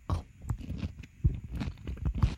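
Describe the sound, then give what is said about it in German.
Raw carrot ends being eaten: quiet, crisp crunches and chewing sounds in an irregular series, with short pauses between bites. “Die anderen, die Zippel, die esse ich jetzt auf.”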